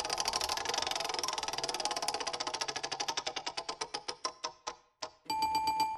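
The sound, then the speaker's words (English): Spinning prize wheel used to pick a random track: rapid ratchet clicks that gradually slow and spread apart until the wheel stops, followed by a sustained electronic chime. Fairly quiet and heard alone. “Let's spin the wheel.”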